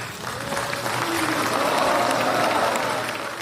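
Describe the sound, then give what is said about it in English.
Applause at the signing of a US–Taliban peace agreement in Doha, Qatar, with a crowd clapping steadily and densely at an even level throughout. “That's the sound of clapping in Doha, the capital of Qatar, where a representative of the U.S. government and a representative of the Afghan Taliban signed a peace agreement this weekend.”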